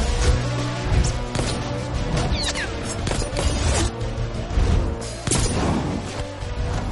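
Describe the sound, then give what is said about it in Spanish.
Pistol gunshots in the 2015 action thriller Hitman: Agent 47, several sharp cracks and impacts scattered among crashing and clattering noises. “El agente camina por un pasillo pistola en mano. Mata a todos los que se cruzan con él.”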